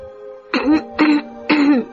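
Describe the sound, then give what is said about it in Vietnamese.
A woman clears her throat three times in quick succession, each a short rough burst, over a steady low background tone. “hắng giọng.”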